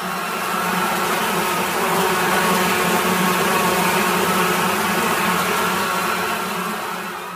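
Swarm of flies buzzing in a dense, loud, continuous drone that swells up over the first second, holds steady, then eases slightly toward the end.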